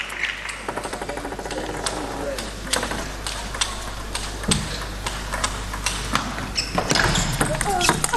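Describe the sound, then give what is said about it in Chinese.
Table tennis ball strikes in a rally during a women's team match between China and Romania, featuring a serve-and-attack and a forehand power loop. Sharp, hollow clicks repeat many times at an irregular pace over crowd and arena noise. “又是一个发球抢攻，正手的爆冲， 好球！”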